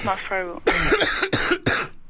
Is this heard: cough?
yes